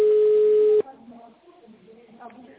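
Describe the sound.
A single steady telephone tone, like a ringback, sounds as a call is forwarded to a call center. It is loud and even for under a second, then breaks off into quiet talk.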